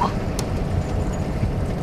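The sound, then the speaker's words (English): Engine rumble of an old car in poor condition out on a road, a low, steady drone with road noise and no clear voices. “Man, it's an old ass car, man. It ain't looking too good and all that, man. But what's going on? I'm slowing down, man.”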